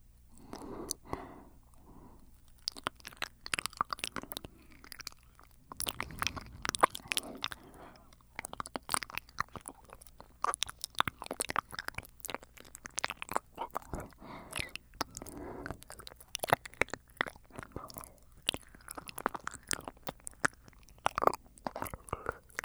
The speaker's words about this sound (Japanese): 全身お口で綺麗にさせていただきます。 お耳から綺麗にいたします。